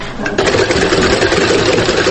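A hand-turned sewing machine runs with a steady, rapid mechanical clatter and whir. It starts softer, then quickly settles into a louder, even, continuous rhythm that lasts throughout with no talk.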